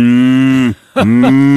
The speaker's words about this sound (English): It's not a cow. It's not a cow. It's a chainsaw, you silly.